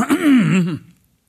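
A man clears his throat once with a loud, gravelly, voiced rasp lasting under a second. Silence follows the rasp, and no other sound is heard.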